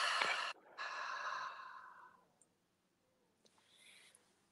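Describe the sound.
Slow, deep exhale after a seven-count breath hold in 4-7-8 breathing: a soft, airy rush of breath, a short puff and then a longer sustained outbreath of about a second and a half, faint and with no talk.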